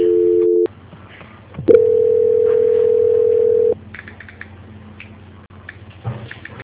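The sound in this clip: Telephone tones sound during a call transfer: a short steady tone, a brief pause, then a longer, loud steady tone, followed by quieter line noise. There is no talk.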